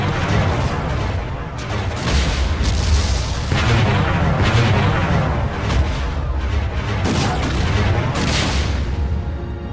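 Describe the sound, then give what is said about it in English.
Weapons fire from a fleet of ships attacking a space station: a loud, unbroken barrage of heavy booms and blasts that overlap densely for the whole stretch, with no pauses between them. “All ships, fire on the station!”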